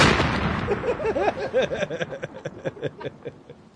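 An explosion sound effect: a sudden broad burst that decays into a rumbling tail lasting a few seconds, with some warbling tonal ringing running through it.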